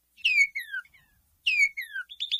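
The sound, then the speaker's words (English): A northern cardinal sings clear, loud slurred whistles that fall in pitch, two phrases of two downslurred notes each, followed by a few short, quick notes at the end, with silence between phrases. “The bright red northern cardinal sounds like this.”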